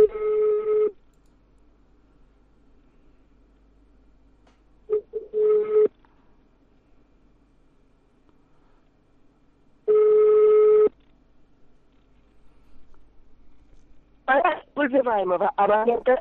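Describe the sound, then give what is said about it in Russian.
Telephone ringback tones sound while a number is redialed: three long, steady beeps spaced about five seconds apart, with near-silence between them. A voice starts speaking at the end. “Сейчас я ему еще раз набираю.”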